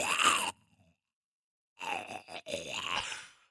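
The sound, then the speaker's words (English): A person's voice imitates the groaning of zombie walkers from The Walking Dead: a short raspy groan, a pause, then a longer guttural, gurgling moan. “See, the main thing I do is the walker noises, like...”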